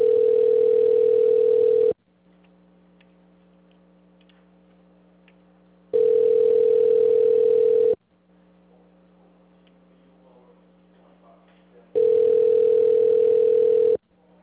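A telephone ringing tone sounds while a call is placed: three steady, buzzing tones, each about two seconds long, separated by silent gaps of about four seconds.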